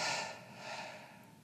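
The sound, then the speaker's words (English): Soft breathing through the mouth during a breathwork exercise: one faint, airy breath of steady hiss that swells and eases over about a second and a half, with no talking. “you're going to exhale through your mouth like a double breath. You're going to inhale through your mouth. And then out through your mouth.”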